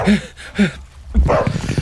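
A distressed dog yelps in two short, high bursts, followed by a longer stretch of rough, muffled noise.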